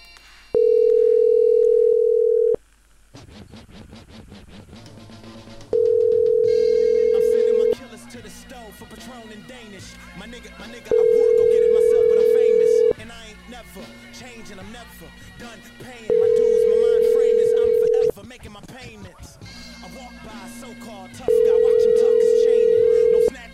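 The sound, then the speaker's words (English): Telephone ringback tone while calling Air Canada: five long, steady, even-pitched tones of roughly two and a half seconds each, evenly spaced, with other quieter tonal sound filling the gaps between them. “So let's call this motherfucker from Air Canada.”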